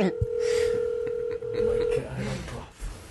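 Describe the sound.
Telephone tones as a call is placed, a steady electronic tone holding for about two seconds before cutting off, with voices talking over and after it.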